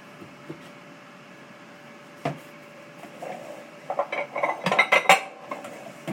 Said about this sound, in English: So we're going to get a bowl here.